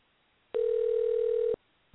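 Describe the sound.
A steady ringback tone sounds on an outgoing telephone call: a single clean, mid-pitched hum lasting about a second, beginning and ending abruptly against near silence.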